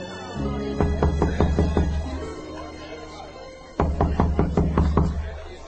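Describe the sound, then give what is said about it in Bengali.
Knocking on a door comes in two bursts of rapid, firm raps, each burst about half a dozen knocks long, separated by a short pause. “কে কে কে দরজায় শব্দ করে?”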